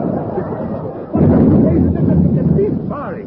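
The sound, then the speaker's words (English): Gunfire from dummy targets firing back: a sudden heavy boom breaks into a sustained, rumbling roar that lasts a couple of seconds before fading. “Blimey, the dummies are firing back. Here, I say, they're not supposed to do that”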